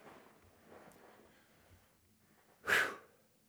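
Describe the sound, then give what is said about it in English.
Heavy breathing while catching breath after exertion: soft, uneven breaths lead to one loud, forceful exhale near the end, with no talk. “Gotta catch my breath.”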